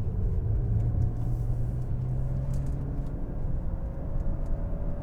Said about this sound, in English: I'm just going to finish out my little drive. See, I'm downshifting. Fourth, third.